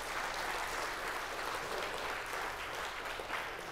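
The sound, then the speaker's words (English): Applause from a church audience welcoming a guest during a morning service, a dense and steady wash of many hands clapping at an even level without a break. “Yeah, give the Lord a hand.”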